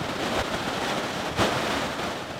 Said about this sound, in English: It's coming from the glacier, every bit of it. It's melting off the glacier. It's quite a torrent today.